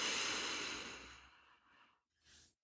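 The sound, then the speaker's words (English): A deep breath drawn in through the nose, loud and airy at first, then tapering off, followed by two brief softer breathy puffs. “Can we all take a deep, grounding breath together? Breathe in through your nose.”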